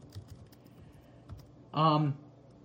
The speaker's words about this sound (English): I gotta just type this up here. And I can't type today.